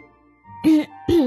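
A person gives a dry cough: two short, throaty bursts about half a second apart, fairly loud against a quiet background with a faint steady hum.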